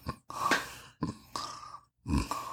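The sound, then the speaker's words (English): A voice imitates the heavy mouth breathing and snoring-like grunts of a big, overweight doctor as he talks, heard as a few rough, breathy bursts separated by short gaps. “Like kind of snoring while he's talking.”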